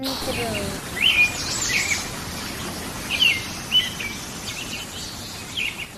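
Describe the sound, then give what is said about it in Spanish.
A sparrow chirps in short, high, bright notes, scattered in a few small clusters over a steady hiss. “Yo he llegado y estoy al lado del gorrión acaricia, acariciándole.”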